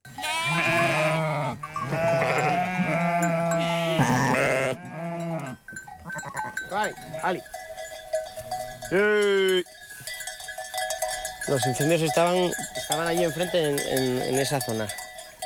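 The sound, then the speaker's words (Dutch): Sheep and goats bleating while grazing with a shepherd in the hills of northern Spain, with cowbells clanking steadily. Many wavering bleats overlap and repeat throughout, some loud and close together. “Zij is met een herder in het noorden van Spanje op pad geweest, omdat grazende schapen en geiten in worden gezet om met name die bosbranden tegen te gaan.”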